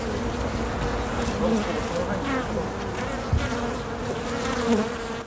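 Honeybees buzz at a beehive, a dense, continuous drone at a steady level with no pause through the whole stretch.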